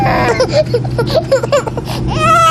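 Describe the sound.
A baby cries on a JetBlue flight in a string of short, high, wavering wails over a steady low hum, ending in a longer drawn-out cry.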